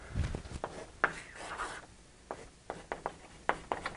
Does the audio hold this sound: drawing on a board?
yes